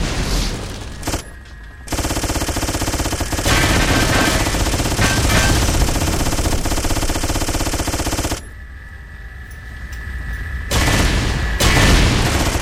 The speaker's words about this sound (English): Nukes. Machine gun.